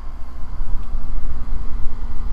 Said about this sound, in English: You hear that? That's the sound of indoor air conditioning.